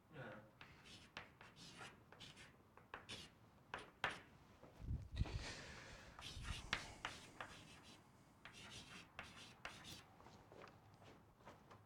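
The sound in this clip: Handwriting with a pen: many faint, scratchy strokes and taps, irregular in rhythm, under a person talking.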